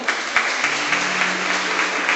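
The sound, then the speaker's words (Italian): Applause from people at a meeting: steady, dense clapping that holds an even level for the whole moment, with a faint low hum beneath it. “vorrei un applauso per Antonella”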